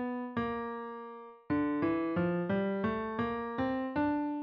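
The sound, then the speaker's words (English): A minor scale in the Aeolian mode, with its flattened sixth, played as clear sustained pitched notes: two opening tones, a pause, then a steady string of evenly spaced notes, heard alone. “To get the Aeolian mode, or the minor scale, you also have to make the sixth note flat. That sounds like this.”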